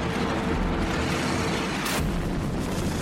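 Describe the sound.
Rocket thrust from a 60-foot-tall Jupiter missile at launch, about 150,000 pounds: a dense, steady, full-bodied roar that never lets up, with a brief brighter surge partway through.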